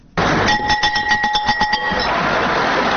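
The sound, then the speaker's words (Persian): A school bell is rung at a school-year opening ceremony at a Kabul high school. It gives a rapid run of about a dozen bright metallic strikes, then a steady noisy background continues. “رئیس جمهور افغانستان با نواختن زنگ مکتب در لیسه یمانی شهر کابل ابراز امیدواری کرد که زنگ مکتب سبب آرامش، ثبات و تحرک در کشور شده”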